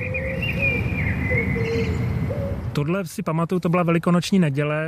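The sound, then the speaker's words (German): Birds call in the empty Wenceslas Square in Prague around 8 a.m. on Easter Sunday, with a few thin, steady tonal calls over a soft hiss, then a voice starts talking over them. “Doch unglaublicherweise konnten wir an dem Tag dort die Vögel hören”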